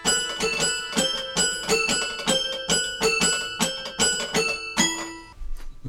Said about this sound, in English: Why are we going to play a toy piano? It sounds like this.